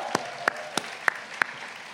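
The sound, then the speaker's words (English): Sparse handclaps from an audience applauding the orientation team at a community welcome event: five sharp, separate claps spaced unevenly over two seconds, fairly quiet, over a soft steady background hiss with no voices. “Let's give it up for the orientation team, please.”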